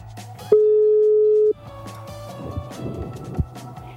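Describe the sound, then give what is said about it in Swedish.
A single steady telephone ringback tone sounds for about one second while a call to an advisor is being placed, followed by faint background clatter. “nästa steg får jag nu ringa en rådgivare”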